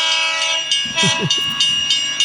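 A train sound effect is dropped into a golf chat as a gag. A loud, sustained train horn chord is joined midway by lower rumbling, chugging bursts.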